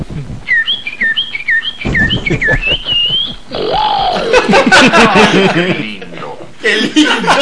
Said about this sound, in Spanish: El legendario periquito come hombres.